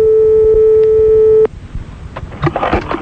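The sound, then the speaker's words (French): Ringing tone of an outgoing telephone call placed from a radio studio: one steady, loud, pure electronic tone holding for about one and a half seconds before cutting off, leaving faint low background noise. “on appelle un monsieur madame Delon dans le studio. Direct.”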